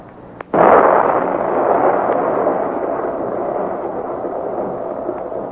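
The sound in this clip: A dynamite blast set off with a plunger detonator: one sudden loud burst, then a long, heavy rumbling roar that slowly fades over several seconds, with no voices.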